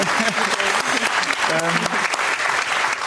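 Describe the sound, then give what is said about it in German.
Studio audience applause on a German television talk show: a dense, steady wash of many hands clapping throughout, with a voice briefly audible over it. “Ja, kann man auch applaudieren.”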